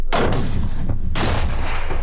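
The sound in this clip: Firing from an anti-tank grenade launcher in a video clip: two loud booming blasts, each followed by a rough rumbling tail that keeps the sound dense between them.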